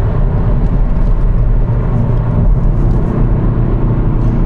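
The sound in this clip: A car engine drones steadily while driving in sport mode through Wales. The low, continuous rumble is even and unbroken, with no talking.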